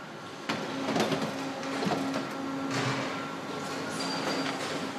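Lasting machine in a shoe factory pulling a leather upper over the last: a fairly faint, continuous mechanical whirr with intermittent humming tones and a few sharp clicks.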